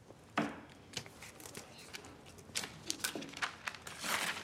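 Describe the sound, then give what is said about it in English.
Paper tearing as a piece is ripped off a pad after writing, heard as a few dry, papery bursts of crinkling and ripping spread over several seconds, with no voices. “rips off the piece of paper and gazes at it.”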